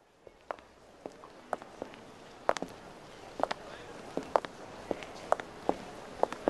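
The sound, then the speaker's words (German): Footsteps walking along Cora Berliner Straße in Berlin: many sharp, crisp steps in a fairly steady rhythm, standing out clearly over a low, constant background hiss. “Wir gehen weiter links in die Cora Berliner Straße bis zu den Treppen, die zum Ort der Information hinunterführen.”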